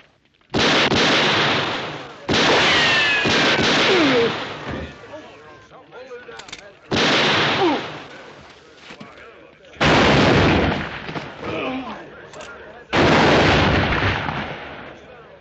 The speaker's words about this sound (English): That's enough shooting.